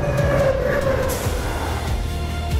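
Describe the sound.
Steady rumbling of a train carriage in motion, a loud continuous roar of wheels and track noise with a low throb and a faint whining tone running through it, without any voices.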